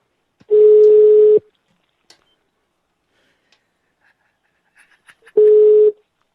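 Two steady, mid-pitched telephone tones, each just under a second long and about four seconds apart, follow a dropped mobile call, with near silence between them.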